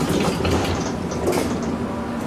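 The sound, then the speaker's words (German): A commuter train on a line running from the countryside into the city rolls along with a loud, steady rumble and rattling clatter that holds even throughout. “in diese Linie 14. Die fährt fährt vom Land in die Innenstadt.”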